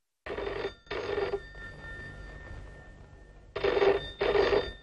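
Home telephone ringing alone: two double rings, each a pair of short, bright, buzzy bursts, with a quieter pause in between.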